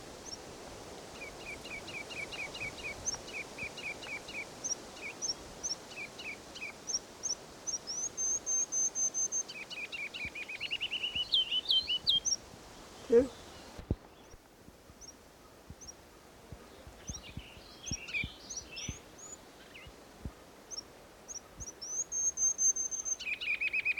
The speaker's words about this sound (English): Here's a ruby crown kinglet.